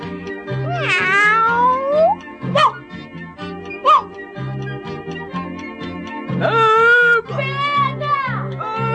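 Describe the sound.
A kitten meows in a children's story recording, with several clear, drawn-out meows of varying pitch over steady background music.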